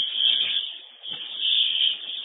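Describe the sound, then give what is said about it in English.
A fire alarm sounding at a fire scene where the blaze appears to be out: a steady, piercing high-pitched tone that holds without a break while its loudness swells and dips slightly, with no voices. “I guess we could try and silence the alarm.”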